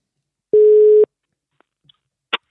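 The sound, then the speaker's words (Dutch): A telephone rings while an outgoing call is being placed, heard as one steady, mid-pitched tone lasting about half a second. A few faint clicks and a short crackle follow in near silence. “Maar we gaan hem eens eh, bellen en kijken hoe het met hem is.”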